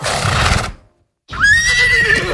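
A horse neighs in a long, high whinny with a bright ringing tone. It follows a short burst of rough noise and a moment of silence, and is loud and clear with no voices.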